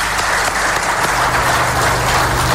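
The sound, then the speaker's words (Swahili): Applause from an audience cheering the best-performing schools and colleges at an event: steady, dense clapping that stays loud and even throughout, with no talk standing out. “We want to say congratulations. Tuwapigie makofi jameni.”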